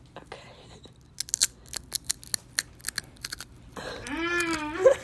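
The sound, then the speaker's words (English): Barbecue potato chips crunch as someone chews them in a quick, irregular run of many sharp, crisp bites. A voice starts up near the end. “Let's eat a little chip together, shall we?”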